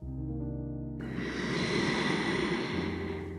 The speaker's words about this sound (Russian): Сделаем полный вдох